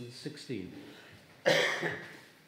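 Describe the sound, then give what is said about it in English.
A single harsh cough from someone reading scripture during a church service, coming after a few short voiced sounds and trailing into a raspy fade. “Excuse me if the voice sounds a bit off, a slight cough.”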